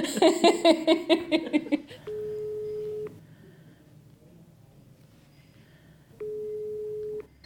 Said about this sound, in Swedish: Nej, han vet inte det. Så jag ska ringa till honom.